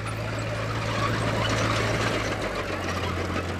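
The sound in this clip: A tractor engine running, giving a steady, even low drone with a constant rumbling hum that holds the same level from start to finish, with no voices.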